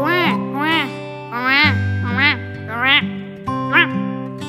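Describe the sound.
A duck quacks over and over in a series of bright, nasal calls with a sustained low tone underneath.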